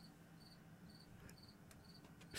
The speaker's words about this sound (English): That cricket is howling. He's having a great time.